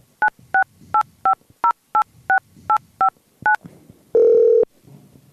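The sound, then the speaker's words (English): A telephone number is keyed in as ten short, evenly spaced touch-tone beeps, followed by one longer, steady, lower tone. “We should call Craig Rando and shit. Yeah, call Craig Rando.”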